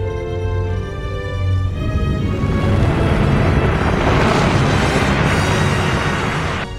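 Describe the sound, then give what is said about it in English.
A surface eruption explosion from subsurface fusion on a planet, destroying a Borg ship: a loud, sustained, roaring rumble that swells and holds for several seconds. A steady tonal hum at the start gives way to the roar. “Pressure wave expansion is accelerating. Subsurface fusion has been initiated. An eruption is forming on the surface.”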